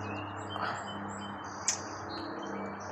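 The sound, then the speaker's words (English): Bird chirping: faint, high twittering notes over a steady low hum, with one brief, sharper chirp partway through. “I'm going to throw something at this bird,”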